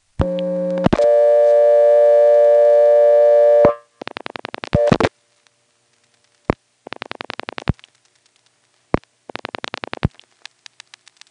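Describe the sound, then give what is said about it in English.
Rotary dialing on a step-by-step telephone exchange, calling a vacant level. A steady tone sounds for about three seconds and cuts off. Then come separate groups of rapid mechanical pulse clicks, with a few single clicks between them. “Here's a call to 898. I'll be dialing a vacant level.”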